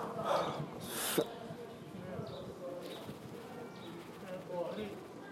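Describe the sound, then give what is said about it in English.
A person breathing in and out deeply while being prayed over for healing. Two strong breath rushes come in the first second and a half, then softer breathing continues over a low background murmur. “As you're closing like that, can you just breathe in and out 3 times?”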